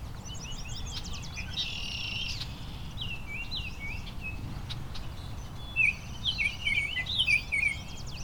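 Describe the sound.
Bird song from one bird whose territory is disputed by another of the same species. High, intricate chirping phrases come and go faintly over a steady low rumble, with a denser, louder burst of notes near the end.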